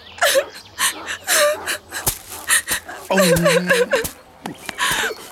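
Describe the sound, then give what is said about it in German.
A woman crying, with breathy sobs and gasping catches of breath broken by a drawn-out, wavering wail in the middle, loud and alone. “Hör auf zu weinen”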